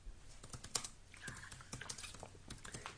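A message is typed on a computer keyboard: many quick, light keystrokes patter in an uneven rhythm, soft and close, with a few slightly harder taps and no talking.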